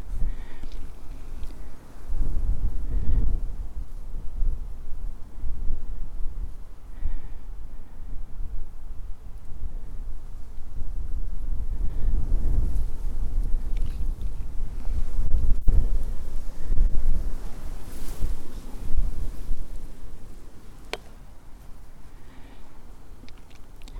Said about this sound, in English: I've walked up the west side of Portland. battling constant wind.